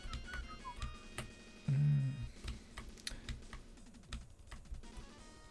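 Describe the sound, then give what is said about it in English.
Fingers typing a search query on a computer keyboard, producing many quick, light key clicks in an uneven stream. The clicks stay faint and scattered, and no talking is heard. “Let me just type stroboscopic hallucination Vimeo into Google.”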